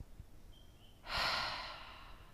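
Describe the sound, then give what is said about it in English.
A slow, deep breath taken in through the nose and released through the mouth, with the exhale heard as one soft, breathy rush lasting about a second against near silence. “And grab all of this through the nose on a deep, deep inhalation. And through the mouth, let everything go.”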